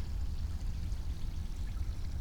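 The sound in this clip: Creek water flows with a steady, full rushing and gurgling noise that stays even and continuous throughout, with no voices over it.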